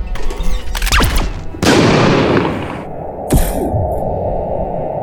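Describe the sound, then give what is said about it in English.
Gunshot blasting a hole in a wall in a sci-fi audio drama: a sharp crack, then a heavy booming blast with a long, decaying roar, followed by another sharp bang over a steady low hum. “I think he shot a hole in the wall.”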